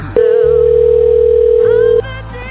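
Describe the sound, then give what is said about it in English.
A telephone dial tone sounds as a loud, steady single-pitched hum that starts abruptly, holds unchanged for almost two seconds, then cuts off. “Getting transsexual porn star Morgan Bailey on the phone.”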